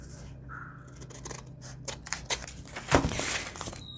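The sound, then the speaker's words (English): Scissors snip through paper scraps while a layered quadruple paper pocket is trimmed. Faint, sharp cutting sounds come at an uneven pace, growing louder and more frequent toward the end. “Now I'm going to flip it over and trim these off.”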